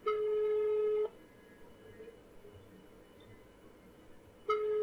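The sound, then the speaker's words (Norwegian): A telephone call rings out: a steady tone lasts about a second, stops for roughly three and a half seconds, then starts again, over a low background hiss. “så nå skal vi ringe Roms”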